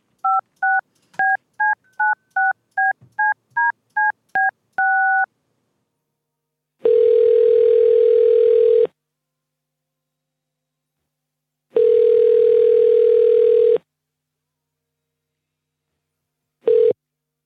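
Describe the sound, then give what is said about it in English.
A telephone number is dialed as a quick run of about ten short keypad beeps and one longer tone. Two long, steady ringing tones with pauses between them follow, and a third starts at the end. “let me call the number now and I will let you speak to this Mr. Tyrone”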